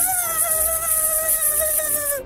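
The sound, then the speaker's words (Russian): A mosquito buzzes in a thin, high-pitched whine that holds steady for about two seconds with a slight waver before cutting off, heard alone. “Вылетел комар в окно и запищал, что было сил.”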